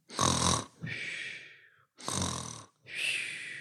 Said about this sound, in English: That is an example of snoring.